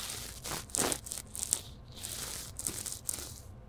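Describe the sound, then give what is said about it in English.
A small microphone rubs against a beard, making loud, scratchy rustling and crackling in many uneven bursts that continue throughout, with no voice. “So that's the sound of my little microphone rubbing on my beard.”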